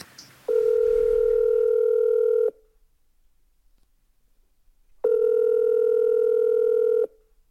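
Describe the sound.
Ringing tones of an outgoing telephone call: two long, steady, buzzy beeps of about two seconds each, separated by a longer silence. They are loud and stand alone.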